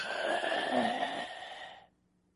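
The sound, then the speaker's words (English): A voice imitates a drawn-out groan, a strained, droning vocal tone with a slight wobble that holds for under two seconds and then cuts off into silence. “They're groaning. Their spirit is being squished. And all they can do is...”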